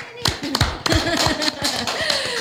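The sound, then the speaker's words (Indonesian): Audience applause heard as a few sharp, scattered hand claps spaced irregularly, sounding beneath a speaking voice. “Oke, tepuk tangan dulu banget.”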